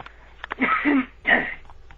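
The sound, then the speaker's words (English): Throat clearing by a person in mid-conversation: two rough, raspy bursts, the first longer and the second shorter, moderately loud, with faint breathy sounds around them and no words spoken. “Excuse me, I'm going to clear my throat.”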